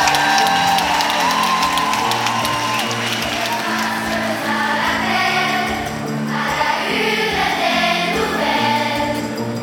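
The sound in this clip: Audience applause and cheering welcome 300 children from a small country singing school. The clapping is loud and continuous, with whoops on top and steady music underneath.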